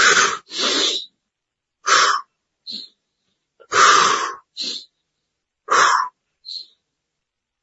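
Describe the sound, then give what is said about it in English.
Forceful power breathing during a deep-breathing exercise: a few loud, rushing breaths alternate with shorter, softer puffs, separated by brief pauses and with no talk. “Wim Hof has a method where you take 30 power breaths.”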